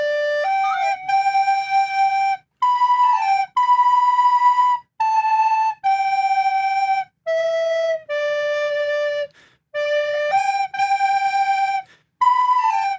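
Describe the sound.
A group of recorders (Blockflöte) plays a song in unison, a clear, bright melody of sustained piping notes grouped in short phrases with brief pauses between them.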